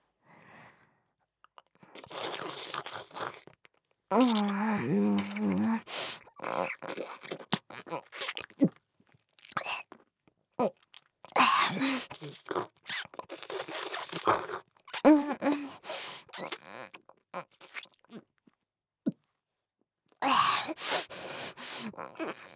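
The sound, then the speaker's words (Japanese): Close-miked eating and swallowing sounds right at the ear, with intermittent bursts of crunching, wet mouth noises and gulps separated by short silences, plus a brief vocal groan. “ちょうど耳元ですし、私のごっくんの音存分に楽しんでくださいね。ではいただきます。”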